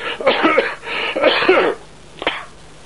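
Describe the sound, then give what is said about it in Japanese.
Coughing and throat clearing: two long, harsh, raspy bursts in close succession, then a short fainter one after a pause, with no talk. “咳ばっかりして、なぜかやらない咳が出ます。”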